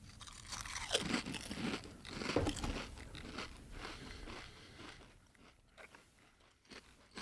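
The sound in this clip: Barbecue-flavored potato chips crunched while eating, with two loud crunching bursts early on followed by quieter, irregular chewing crackles. No talking.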